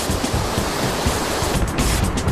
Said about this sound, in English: We're here at the death-defying Kern River in sunny California, where our two teams of junkmasters are preparing to put their power rafts to the ultimate test, white water.